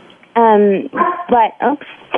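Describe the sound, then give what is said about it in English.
A dog yips and whimpers in several short, high, tonal bursts. Some calls slide down in pitch like small howls, and they come in quick succession. “And that's my dog, by the way. Blue wants to say hi to everyone.”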